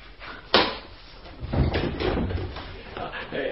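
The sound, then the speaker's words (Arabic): A door opens in a house as someone answers a knock, marked by one sharp knock-like click near the start and then soft rustling and shuffling, with a voice faintly present. “استنى يا شحت، استنى هقوم افتح لك اهو.”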